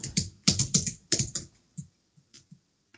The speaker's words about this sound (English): I think I typed it right. Will I put it in the chat? Yeah, put it in chat.